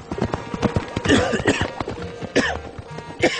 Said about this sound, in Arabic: حسبي الله عليك يا رشود، حتى حصان ما سلمت منه مع الغبره. حصان يقحص.